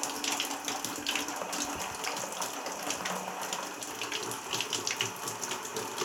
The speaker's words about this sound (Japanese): じゃあまずはお湯で頭皮を洗って